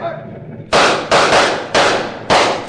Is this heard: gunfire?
yes